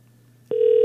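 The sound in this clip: An outgoing telephone call rings unanswered: a faint low hum gives way halfway through to a loud, steady ringback tone that starts abruptly and holds to the end.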